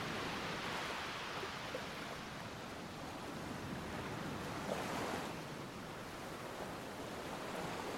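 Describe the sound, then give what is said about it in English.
Ocean waves rolling toward the coast: a deep, continuous surf roar fills the whole stretch, swelling slightly near the middle before settling back to a steady rush. “Great barrels of blue ocean thundering coastwards.”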